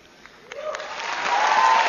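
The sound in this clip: Audience applause after a speech at the Cannes film festival. It swells from near quiet into a dense, steady wash of clapping that keeps growing louder to the end.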